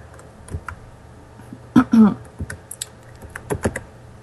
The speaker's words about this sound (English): Okay, I'm going to put it on here. There's two. I'll type direct line first.